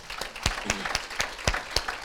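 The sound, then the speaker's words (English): Applause from a church audience in its worship space: a steady run of sharp, crisp claps at an even pace, with a few louder claps standing out over sparser clapping and no talk. “Can we clap for that?”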